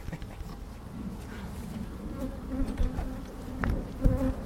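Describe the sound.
Bees buzz inside a freshly opened beehive body during a hive inspection, a faint steady hum. A few louder passes of buzzing swell toward the end.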